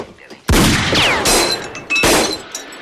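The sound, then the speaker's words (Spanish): A dropped pistol fires, and the bullet ricochets: loud, sharp gunshot bursts, with a whining streak between the first blasts and a final crack. “Al caer, la pistola se dispara y la bala rebota en varios sitios.”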